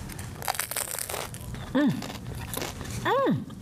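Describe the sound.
Crunchy bites into a buttered bread crust give crackly, crumbly crushing sounds, with people talking and two short sung-out vocal sounds breaking in.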